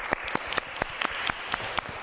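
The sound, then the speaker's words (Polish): An audience applauds a group, giving a steady, fairly faint patter of clapping with sharper individual claps standing out at a regular pace. No voices are heard. “Brawa dla tego zespołu.”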